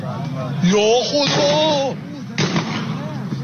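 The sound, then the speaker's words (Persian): A few sharp gunshots crack out as Basij forces shoot at people during street unrest, heard under a man's loud, agitated voice. “بسیجی ها رو ببینیم با تیر دارن مردم رو میزنن، اصلا هم براشون مهم نیست. ببینیم حاجی تیر زنن، من گفتم مشقیه.”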